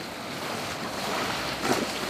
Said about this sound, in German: Hinter mir ziehe ich das Boot nun her.